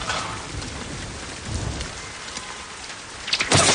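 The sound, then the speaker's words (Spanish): Heavy rain pours into an alley: a dense, steady hiss of drops through the whole clip that swells louder and brighter near the end. “Llueve con intensidad”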